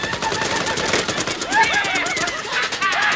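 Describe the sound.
Rapid machine-gun fire in an animated action scene as gunmen shoot at people on a cable-suspended tram: a dense, continuous rattle of shots with whining high tones sweeping over it throughout.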